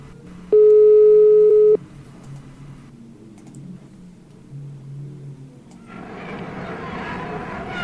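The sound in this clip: A telephone line tone as a call goes through: a single steady, loud electronic tone lasting about a second, followed by a faint low hum and background noise, with a louder hiss near the end.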